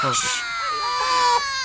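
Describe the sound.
A newborn baby cries just after birth, a loud, high, wailing cry with a wavering pitch that runs without a break.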